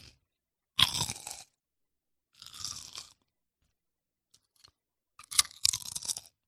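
Crisp crunching and chewing of potato chips in an ASMR-style recording, heard as several separate bursts of loud, brittle crackling with silent pauses between bites and a couple of faint ticks in one gap.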